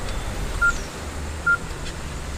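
Two short touch-tone beeps sound from a phone keypad as a number is dialed, evenly spaced over a low, steady background noise.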